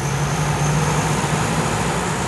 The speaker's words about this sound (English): A bulky C-130 transport plane is firing up its four propeller engines.